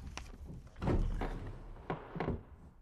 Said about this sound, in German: Als erstes sollten wir dort den Schreibtisch untersuchen. Mal sehen, was sich in den Schubladen befindet.